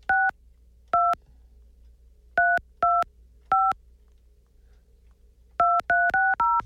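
A touch-tone telephone number being dialed: nine clean dual-tone beeps in an irregular rhythm with pauses between the first five, then the last four in quick succession, over a faint low hum.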